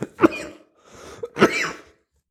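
Harsh coughing and throat clearing from someone who has swallowed something the wrong way, in two rough bursts separated by a short pause, at moderate loudness with nothing else beneath.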